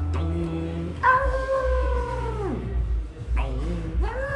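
A person imitates a dog howling at the Angelus bells, making long, wavering, tuneful howls. One sustained howl slides down in pitch at its end, and a second howl rises after a brief gap.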